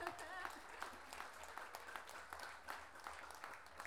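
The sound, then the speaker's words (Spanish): Audience applause at a national improvised-verse tournament gathering in a village of artists and artisans in Pirque, steady, dense clapping with a voice briefly heard at the start. “Un aplauso para nosotros que estamos aquí en septiembre.”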